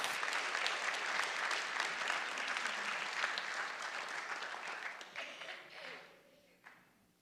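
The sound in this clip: Church audience applauding to welcome a guest preacher at a service, dense sustained clapping that slowly thins and fades away toward the end.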